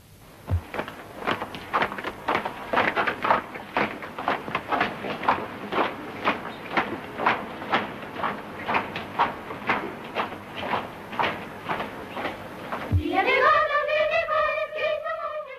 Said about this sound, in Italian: Ecco di nuovo i passi di marcia modalità esercito